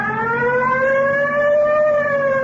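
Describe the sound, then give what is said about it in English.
A police car siren is switched on to pull over a car that turned from the wrong lane. It is a loud, sustained wail with strong harmonics that rises slowly and steadily in pitch, heard alone. “You want to hit the siren?”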